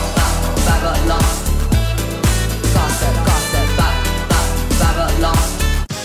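A loud dance-pop track with a steady thumping kick beat and a deep bass line that runs without a break.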